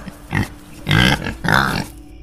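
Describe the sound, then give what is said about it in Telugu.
A pig, a wild boar in a farm field at night, grunts three times: a short first grunt, then two longer, louder rough grunts with brief pauses between them. “పంది మూలిగినట్టు శబ్దం రావడంతో హఠాత్తుగా లేచి చూశాడు”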